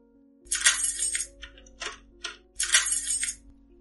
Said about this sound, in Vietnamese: Tiếng ổ khóa va chạm vào cánh cửa sắt khẽ vang lên, phá tan bầu không khí im lìm.